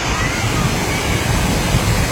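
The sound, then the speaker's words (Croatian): A mountain stream at Jankovac on Papuk rushes steadily, a dense, even hiss of flowing water that stays constant, with no pauses. “Potok, priroda i apsolutni mir. Šum koji zapravo oslobađa i savršeno.”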